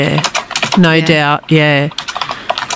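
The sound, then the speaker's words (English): Typing on a computer keyboard: quick, irregular key clicks run under and between a person's talking. “you're having a type there. Yeah, it's a bit of ASMR.”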